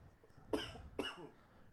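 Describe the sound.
Two abrupt, harsh coughs from someone who has just inhaled water, the bursts about half a second apart and fairly faint, with no talk around them.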